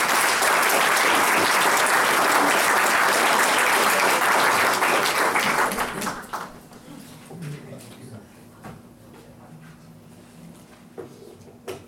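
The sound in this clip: Audience applause welcoming a speaker, dense loud clapping for about six seconds that then thins out and dies away to scattered claps.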